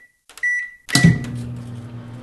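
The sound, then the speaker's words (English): A microwave oven runs: a short electronic beep gives way to a steady low electric hum with a brief clunk as it starts, continuing alone to the end. “Waiting for the microwave.”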